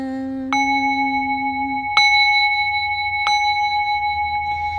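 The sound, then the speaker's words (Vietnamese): A bell rings with three clear strikes, each leaving a long, steady resonant hum. A lower tone sounds beneath the first part before fading. “Lặng nghe từng tiếng chuông ngân”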